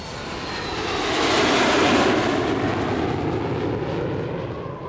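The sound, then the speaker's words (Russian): An airplane taking off for a flight, its engine a broad, continuous roar that swells to a peak in the middle and then eases slightly while staying loud and steady to the end. “пора отсюда улетать, быстрее к самолету. Летим? Куда? Куда мы летим? Мы летим в Австралию!”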